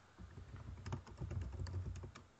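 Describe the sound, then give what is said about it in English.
Typing on a computer keyboard: a quick, irregular run of many light clicks, faint and unaccompanied. “So much typing.”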